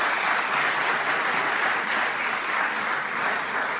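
An audience gives steady applause as the Minister of Education and Culture is invited to the podium at a public event, a dense, even wash of clapping with no voices over it.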